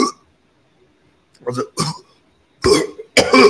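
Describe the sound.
A voice imitates choking on a hot dog lodged in the throat: a few strained, gagging, cough-like bursts separated by short silent gaps, growing louder and rougher toward the end.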